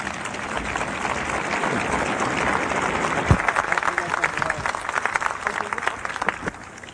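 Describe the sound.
An audience applauds to welcome a speaker onto the stage. The clapping is dense and steady, holds at an even level for the whole stretch and has a few sharper claps near the middle.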